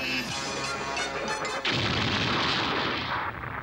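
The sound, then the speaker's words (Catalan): A stick strikes a robot with one sudden loud crash, and a broad, noisy clatter follows as the robot falls backward, fading slowly over the next two seconds. “En Goku li ha donat un copet amb el bastó. Oh. El robot cau enrere.”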